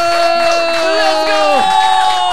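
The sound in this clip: Crowd cheering and whooping plays from a soundboard button, a single loud, continuous burst of massed shouting voices with no pauses.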